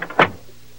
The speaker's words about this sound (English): Now open the door for me.